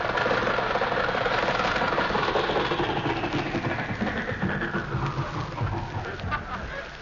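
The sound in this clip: A car engine sputters as it runs out of gas, with a rough, uneven idle of low throbbing pulses that grows slightly weaker toward the end.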